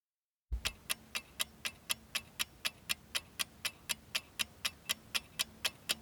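Sharp, steady ticking of a clock counting down during a quiz question. After a short silence, many crisp, evenly spaced ticks follow at a brisk, regular pace of roughly three per second, with no talk over them.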